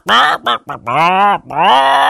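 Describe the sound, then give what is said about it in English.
A voice imitates a chicken walking around a farmyard, giving a few loud, nasal squawking calls in quick succession, the last two longer and drawn out. “There was a chicken walking around the yard.”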